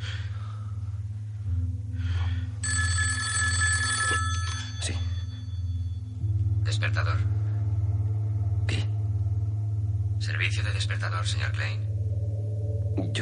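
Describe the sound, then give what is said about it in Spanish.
A telephone rings in several separate bursts of bright metallic bell ringing over a constant low rumble, with quiet gaps between the rings. “El periodista se queda mirando al techo y cierra los ojos justo cuando suena el teléfono.”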